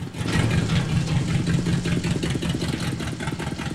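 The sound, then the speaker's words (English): A charred, smoking, damaged car's engine runs as the car turns, a loud, rough rumble with an uneven, pulsing throb throughout. “Darnell watches closely as the cremated car turns in front of him. He can't see into her for the smoke spewing from her bodywork.”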